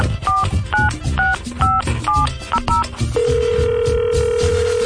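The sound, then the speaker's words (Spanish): Telephone dialing as a contest winner's number is keyed in: a quick series of touch-tone beeps of varying pitch, then a steady, continuous line tone that holds until the end. “Y vamos a marcarle al ganador del veranazo.”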